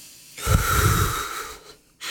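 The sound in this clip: A distressed person breathes slowly in and out while being talked through it in an emergency. One long, rough, slightly wheezy breath lasts over a second, then fades, and the next breath begins after a short pause. No voices are heard.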